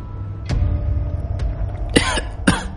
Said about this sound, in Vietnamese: Bạch Ma ho khan, mỗi lần ho khan lại phun ra một lượng lớn máu tươi